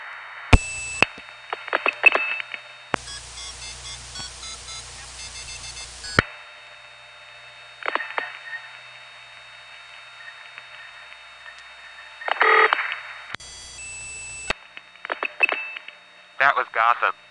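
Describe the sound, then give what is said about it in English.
A telephone ring comes through a whooshy, hissy phone connection. Short electronic tone bursts and one long ringing tone of about three seconds are heard, with scattered breathy noise bursts between them. “It's too bad I disconnected, because the ring sounds so cool through this whooshy connection. In any event, enjoy the one ring that I let go through.”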